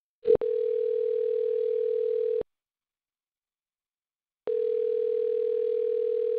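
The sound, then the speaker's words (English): A steady, moderately loud telephone dial tone sounds while a call is being placed. It comes in two long stretches separated by about two seconds of silence, with a brief click just before the first. “let's just call Emma and see what's up”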